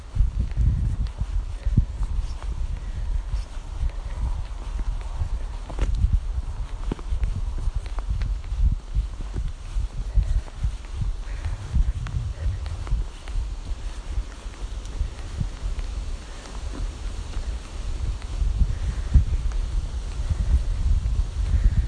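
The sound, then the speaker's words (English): Wind blows outdoors on a grey, overcast day while a rider canters a horse, a steady low buffeting rumble across the microphone with faint irregular thuds beneath it. “It's a bit of a grey day, a bit overcast, a bit windy, as you can hear, and probably now that I'm going canter to the wind.”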